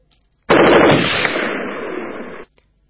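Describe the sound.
Automatic gunfire in a wartime firefight, with bullets striking a crape myrtle tree. It comes as one loud burst of about two seconds, the rapid shots blurring together. The burst starts abruptly and cuts off sharply, with quiet before and after.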